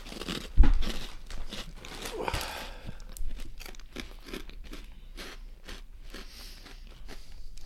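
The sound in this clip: Someone crunches and chews a jalapeno snack, producing many crisp, rapid crunches in a steady chewing rhythm, with a louder bite near the start.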